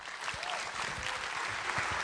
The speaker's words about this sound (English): please put your hands together and give a warm welcome this morning